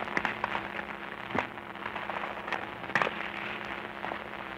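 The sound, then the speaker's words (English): Distant machine-gun fire during a wartime night and morning after rain: a few sharp, faint cracks scattered over a steady low hum, spaced irregularly rather than in a continuous stream. “Machine guns have been going like this all morning. In fact, they went on all night.”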